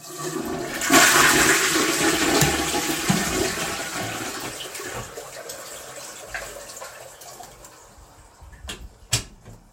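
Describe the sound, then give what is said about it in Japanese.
A toilet flushes with a loud rush of water that slowly subsides over several seconds into softer gurgling and trickling, ending with a brief sharp knock. “じゃあちょっと音がうるさくなるかもしれないんですけど、ちょっとトイレ流しますね。”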